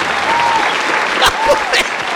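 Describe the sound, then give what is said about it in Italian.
Audience applause: dense, steady clapping from a crowd that continues at an even level through the whole clip, with a few sharper bursts near the end. “Applauso.”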